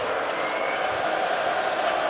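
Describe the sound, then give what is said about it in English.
Restless hockey crowd in a Buffalo arena late in game 2 of a series against the Montreal Canadiens, a steady, dense murmur of many voices with scattered calls, holding an even level throughout. “Restless crowd in Buffalo.”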